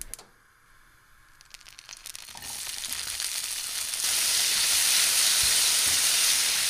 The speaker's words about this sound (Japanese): フライパンにサラダ油を熱してさつまいもを入れて炒めます。